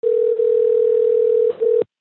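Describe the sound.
A telephone line tone sounds before a call, a steady mid-pitched tone lasting nearly two seconds with two brief dips in the middle before it cuts off abruptly.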